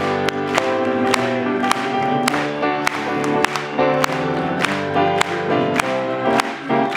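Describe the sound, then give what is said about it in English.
A church audience claps in a steady beat along with a music-backed, old-time religion gospel song. The sharp, even claps repeat throughout over the sustained music. “Let's just clap it for them. Amen. One more time. Let's clap it.”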